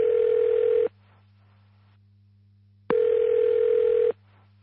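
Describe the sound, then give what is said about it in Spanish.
Telephone ringing in two steady, even-pitched tone bursts, the first just under a second and the second a little longer, separated by a pause, over a low continuous hum. “en la fortaleza de Agromán suena una llamada”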